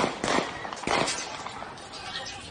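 Gunshots ring out in street footage from a shooting: two sharp, sudden bangs close together early on, then a continuous noisy background.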